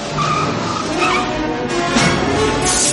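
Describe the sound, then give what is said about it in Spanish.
A DeLorean car spins out on a street, a loud, sustained tire squeal with a roaring engine that stays strong throughout the few seconds. “Marty hace un trompo con el DeLorean. Lo sitúa ante una línea blanca pintada en la calzada.”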